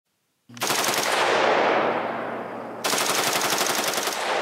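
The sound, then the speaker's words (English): A semi-automatic rifle fitted with a bump stock fires in two long bursts of very rapid shots, a sustained rattling roar like a fully automatic weapon, with a brief dip in loudness between the bursts. “and then the gun bounces against his finger. So it fires like a fully automatic weapon.”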